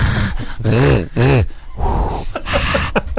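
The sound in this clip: A voice imitates heavy breathing on someone's neck with loud, harsh, rasping breaths and two drawn-out voiced groaning pushes in the middle.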